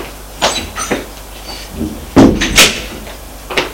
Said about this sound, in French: Ouvre la porte et la lui montre.